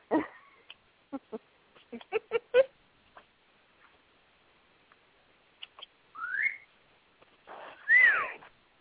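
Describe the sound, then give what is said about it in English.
Birds chirp in sporadic bursts: a scatter of short clicks and tweets, then two longer rising whistle-like calls toward the end, fairly faint with quiet gaps between. “if you hear periodic giggling in the background on my side, it's the birds. Okay. I do hear the birds.”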